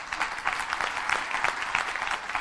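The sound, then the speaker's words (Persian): Applause from a group at a coaching session: dense, even clapping that holds at a steady level for a couple of seconds, with no break. “آره مرسی از بازخوردت، مرسی، تشویقش کن”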